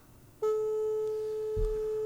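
A sine test tone tuned to 432 hertz switches on abruptly and holds a steady, pure pitch to the end, with a brief low bump partway through.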